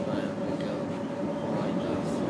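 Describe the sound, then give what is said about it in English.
Steady rumble of a tram riding along its line, with a constant mid-pitched whine held over continuous wheel and motor noise throughout. “So we're on line F tram.”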